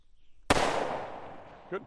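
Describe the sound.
A single rifle gunshot cracks out sharply, then rings down in a long, fading tail.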